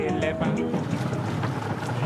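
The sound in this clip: A boat cruises the waters surrounding an island, with steady engine rumble and wind buffeting throughout. A faint voice is briefly audible near the start.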